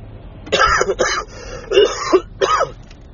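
A man coughs and clears his throat in a few harsh, separate bursts, with short quiet gaps between them.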